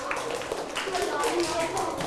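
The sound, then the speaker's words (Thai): A class of students clapping for everyone, a dense, steady patter of many hands with voices mixed in throughout. “ปรบมือให้ทุกคน”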